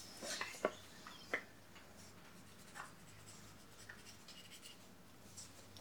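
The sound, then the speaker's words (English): A pen or pencil drawing on paper, heard as faint scratching with a few soft taps and scrapes over a low, quiet hiss, without talk. “Are you going to do a drawing, do you think”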